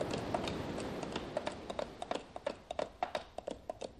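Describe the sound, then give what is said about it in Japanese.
Hooves of a horse being ridden on a morning outing, a faint, steady clip-clop of many evenly spaced beats over a hissy background. “その頃の私の朝の日課は乗馬やったとです。”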